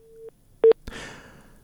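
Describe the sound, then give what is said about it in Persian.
Telephone busy tone after a call to a reporter dropped: a steady mid-pitched tone cuts off, a short loud beep follows, then a soft rush of noise. “تلیفونی تماس لکه چې له فرشته مرسل سره پرې سوی دی. فرشته جان، آواز اوري؟ له فرشته مرسل سره مو تلیفوني تماس پرې سوی.”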